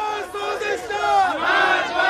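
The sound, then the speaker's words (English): A crowd at a street rally in Tehran chants slogans. Many voices shout loudly together in a rhythmic unison, and the chant rises and falls in repeated phrases. “Death to compromisers, the crowd chants.”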